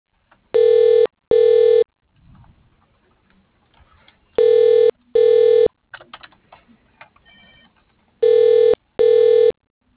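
Telephone tones as a call is transferred to voicemail: six steady, loud beeps in three evenly spaced pairs, with faint clicks and rustling in the gaps between them.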